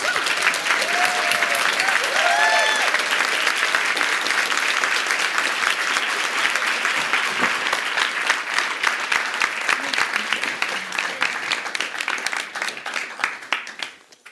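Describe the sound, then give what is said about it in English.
An audience applauds to welcome two speakers onto the stage at a literary talk, dense sustained clapping that holds strong for most of its length before thinning and tapering off at the end. “So please help me give them both a warm welcome.”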